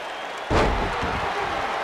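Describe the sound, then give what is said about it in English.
A heavy wrestler slamming onto the ring mat during a gut wrench slam in a pro wrestling match: one loud, deep thud partway through, over steady background noise that continues afterward. “Gut wrench slam by the biggest thing in the world.”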